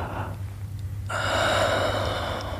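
A deep inhale during a breathing-control exercise: one long, steady breath drawn in, rising from quiet and holding fairly loud to the end, with soft breath noise before it.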